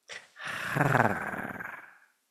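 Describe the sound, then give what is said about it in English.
A dog gives one short bark, then a sustained rumbling growl that pulses and holds for well over a second before trailing off, with no talk over it. “When I say dog fight, stop barking.”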